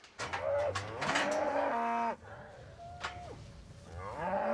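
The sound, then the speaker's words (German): Mother cows moo loudly for their calves, which have been separated from them by a fence on an island farm. A few long, overlapping calls follow one another, some rising and falling in pitch, with no talking. “Und auch die Mütter leiden und können es nicht abwarten, zu ihren Kälbchen zu kommen.”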